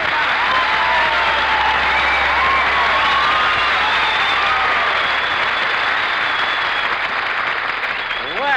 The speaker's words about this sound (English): Listen to that reception, kid. Isn't that a wonderful audience out there?